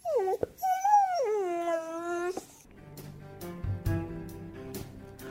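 A dog whimpers in a high, whiny cry that wavers and then dips lower in pitch. Quieter, mixed noises follow once the cry fades.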